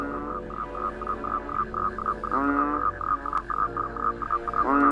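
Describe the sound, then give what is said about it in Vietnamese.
Frogs croaking at night in autumn, a chorus of many rapid pulsed calls repeating steadily, with a couple of louder, more resonant croaks standing out over the continuous background chatter. “Phía dưới sâu, tiếng ếch nhái ỉ õm vang lên đến não cả ruột.”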